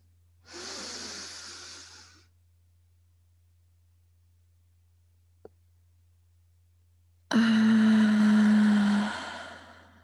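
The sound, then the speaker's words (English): Deep breaths taken during a guided exercise: two long, airy breath sounds separated by near silence and a single faint click, the second louder and joined by a steady low hum. “All right, let's do a deep inhale.”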